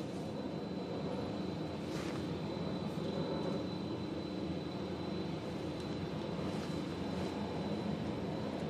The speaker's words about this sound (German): Da kommt die Pilotin, dreht langsam rein.